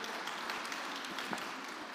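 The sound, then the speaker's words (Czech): A church audience applauds to welcome a newborn son, a fairly faint, steady patter of many hands clapping with a few sharper claps standing out. “Můžeme zatleskat na vyjádření a”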